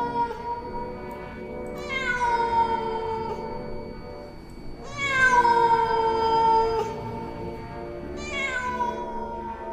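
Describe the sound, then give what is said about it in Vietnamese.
Three long, pitiful meows from a cat, drawn-out and strongly tonal, with quiet gaps between each loud, wailing cry. “Bỗng nhiên, con mèo không biết từ đâu trôi ra, lao đến trước mặt Nhuế Lãnh Ngọc. Nó kêu lên những tiếng nghe thảm thương lắm.”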